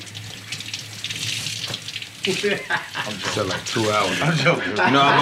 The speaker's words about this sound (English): I'm just gonna rinse these off real quick.